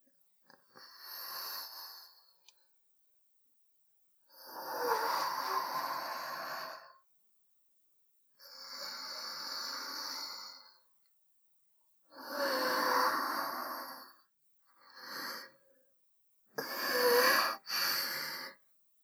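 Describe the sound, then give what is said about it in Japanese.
Slow, deep breaths taken to calm down, a series of long, airy inhales and exhales separated by quiet pauses, soft and alone. “え？一旦深呼吸ですか？そうですね。”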